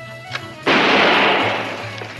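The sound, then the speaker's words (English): A gun is test-fired into a stack of videotapes: one loud, sharp shot with a sudden onset and a long, noisy decay, preceded by a faint small click. “Watch carefully as I test fire this gun into these videotapes of Barbara Walters' interviews.”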